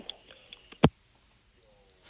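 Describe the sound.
A single sharp click marks a phone call hanging up, standing out clearly amid a few much fainter ticks on a quiet line.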